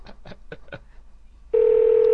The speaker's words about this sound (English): It's because it already answered and then the ringing is being played at us from the answer phone.